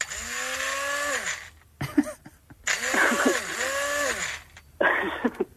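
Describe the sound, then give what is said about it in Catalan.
A voice imitates a Minipimer hand blender running, making a buzzy whirring hum in a few bursts with wavering, rising and falling pitch and short pauses between them. “Bueno, jo li dic el braç, el mini pimer. Correcte, un mini pimer.”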